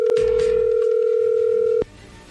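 Telephone tone as a call is dialed: a single steady, mid-pitched beep holds for almost two seconds, then stops abruptly, leaving a quiet line.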